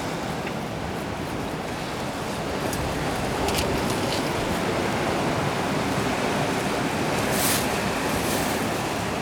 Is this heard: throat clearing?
no